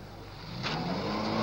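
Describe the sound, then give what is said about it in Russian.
A clean mobile cinema van pulls into a gas station and brakes, its low engine rumble swelling steadily louder, with a short airy hiss partway through. “На заправку въезжает чистая машина кинопередвижки. Тормозит.”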